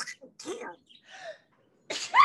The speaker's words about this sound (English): Hold on, I really gotta sneeze.